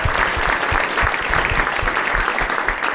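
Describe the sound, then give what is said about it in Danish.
Dense, sustained applause from an audience welcoming a guest, a mattress tester, on a Danish evening show. The clapping stays even and loud throughout, with no voices on top. “mine damer og herrer, giver en kæmpe stor hånd til madrastester.”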